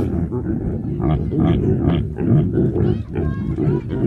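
Reindeer mother and calf calling to each other in a pen, a constant run of deep, rough grunts overlapping one another without pause, loud and dense throughout.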